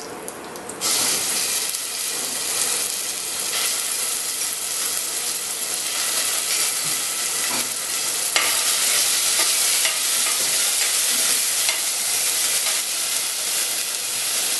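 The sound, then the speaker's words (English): Ginger garlic paste bursts into a loud, fierce sizzle as it hits a hot pan, a dense, steady hiss that holds throughout with faint scraping and crackling mixed in. “Next up, we add some ginger garlic paste.”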